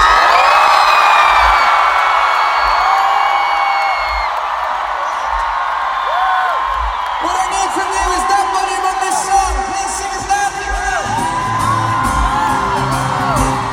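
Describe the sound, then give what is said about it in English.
A concert crowd screams at a live pop show in Moscow, a sustained, loud roar of cheering, whoops and high yells that stays dense and continuous throughout. “The volume that you did then is what I want for the entire show, otherwise I'll be very, very, very sad. Very sad. So once again, scream!”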